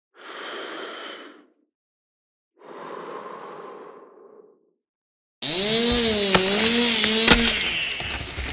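A chainsaw cuts trees. After two long, breathy whooshes separated by silence, a loud motor drone starts abruptly and holds steady, its pitch wavering up and down as the engine revs.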